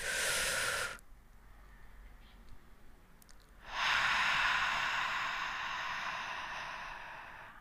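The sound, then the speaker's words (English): A big deep breath: a short breathy rush, a quiet pause, then a long airy breath lasting several seconds that slowly softens, with no talking. “I will end this episode with a nice big deep breath.”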